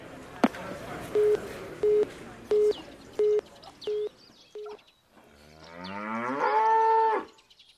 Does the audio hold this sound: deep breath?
no